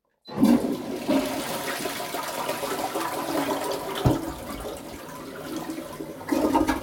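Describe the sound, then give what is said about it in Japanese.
A toilet flushes with a loud, continuous rush of water that starts abruptly and holds steady for about six seconds, then surges again briefly near the end. “じゃあ流しますね。”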